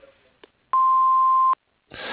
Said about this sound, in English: If you have any questions, please leave a message after the beep, and we'll get back to you as soon as possible.